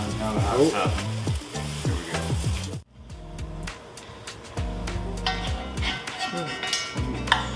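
Meat marinated overnight sizzles on a grill. A steady, crackling hiss runs throughout, moderately quiet, with stirring and scraping sounds mixed in.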